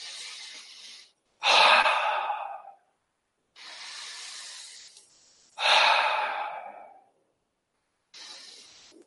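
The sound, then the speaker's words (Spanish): Slow, deep breathing during a guided relaxation, taken three times: soft hissing inhales alternate with loud, rushing exhales that swell and then fade, with no talk over them. “respiro profundamente tres veces”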